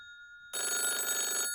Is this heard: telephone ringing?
yes